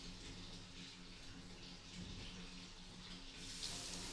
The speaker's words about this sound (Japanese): さあ流しますので、また目を閉じてお待ちください。